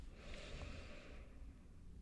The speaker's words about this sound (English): So wherever you're seated, take a deep, full breath in,